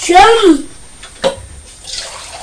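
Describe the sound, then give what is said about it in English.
Hot water poured into a bottle to warm a knife for spreading icing: a loud, brief pour whose tone rises as the bottle fills, then a short sharp knock and quieter water sounds. “I'm just putting some hot water in this bottle and heating the knife up in the hot water so that the icing spreads better.”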